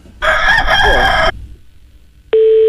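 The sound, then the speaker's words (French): Rooster crowing over a telephone line: one loud, harmonic crow lasting about a second, then, after a short pause, a steady electronic tone begins. “Ah ben ça cocoricote tout le temps.”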